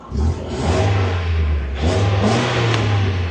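Car engine revving through its original factory exhaust, a deep, continuous rumble that swells once partway through and holds loud and steady with no voices.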